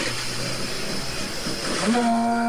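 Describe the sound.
Toyota Yaris rally car engine held at the rev limiter as it takes a jump on a rally stage: a steady mechanical roar with a strong harmonic tone that climbs in pitch toward the end.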